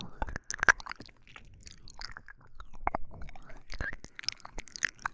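Wet, soft chewing of tender, juicy cured meat, with many irregular bites and squelchy mouth sounds at a quiet level, with no talking.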